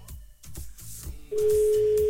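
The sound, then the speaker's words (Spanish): A telephone ringback tone on an outgoing call: a steady, low, even tone cuts in partway through and holds to the end over a busy, noisy background. “hacer una llamada. A ver si contesta Magdalena.”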